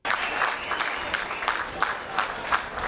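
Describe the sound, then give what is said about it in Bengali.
Applause from a crowd welcoming refugees who have arrived by train in Vienna from Hungary: dense, continuous clapping at a moderate level, with a few sharper individual claps standing out. “Hungary থেকে ট্রেনে চড়ে ভিয়েনায় আসা ওইসব মানুষদেরকে এভাবেই হাততালি দিয়ে স্বাগত জানান তাদের আগে যারা এসেছেন তারা।”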